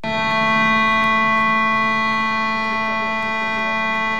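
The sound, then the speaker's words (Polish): Civil defence sirens sound in Lublin to honour the Warsaw Uprising anniversary. The wail is loud, steady and sustained, with stacked tones holding a constant pitch for the whole stretch and no voices. “Syreny zabrzmiały, serce zadrgało, krótko.”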